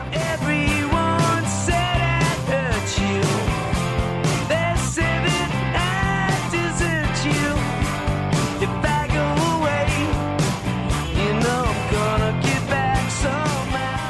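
A band performs a cover of an older song, with a sung lead vocal over steady drums and full band backing, moderately loud and continuous throughout with no speech.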